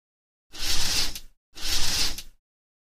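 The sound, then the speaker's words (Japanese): Curtains being drawn closed: two smooth swishes of fabric sliding along a rail, each just under a second and equally loud, heard alone. “ぼーっとしてないで、カーテン閉めるの手伝ってよ。”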